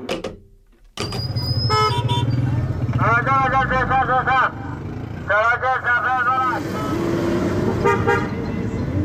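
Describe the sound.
Car horns honk in Kabul street traffic during a taxi ride: several loud bursts of rapid, repeated toots ring out over the steady rumble of engines and road noise.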